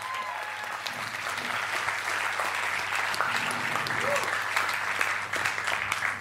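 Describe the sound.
Applause from a comedy festival audience welcoming a comedian to the stage, a continuous wash of clapping that swells slightly toward the middle and end, over a low steady hum.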